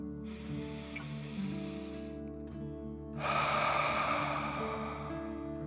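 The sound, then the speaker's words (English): Deep breathing during a guided breathing exercise: a slow, soft, hissing inhale is followed after a short pause by a louder, longer, breathy exhale, with no talk. “Deep dragon breath in and out. Again, deep dragon breath in and out.”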